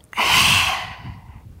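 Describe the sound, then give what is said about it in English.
One forceful, breathy open-mouth exhale of lion's breath during a yoga class. It bursts out loudly, then tapers off over about a second into quieter breath. “Exhale, lift up with lion's breath.”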